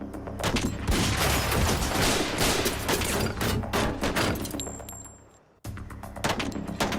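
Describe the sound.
Dense gunfire as a suspect opens fire on FBI SWAT agents during an arrest. Loud, rapid shots crackle almost continuously, fade into a brief silence near the end, then the shooting resumes.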